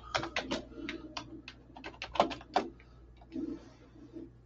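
Typing a message into a live chat on a keyboard: many quick, crisp clicks in an uneven rhythm, steady at moderate loudness, pausing briefly before a few more taps.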